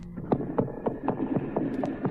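Hooves of a horse pulling a wagon clip-clop in a steady, even rhythm at night. The thuds and knocks are fairly soft and repeat regularly over a low hum.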